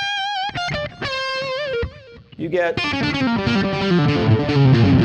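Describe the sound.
Electric guitar through an amplifier turned down to low volume: clean ringing notes come first, then a brief pause, then a thick distorted strummed passage that stays loud and dense.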